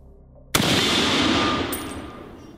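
A single loud gunshot sound effect in a horror story breaks a quiet, low backdrop. A sharp blast is followed by a long rumbling decay.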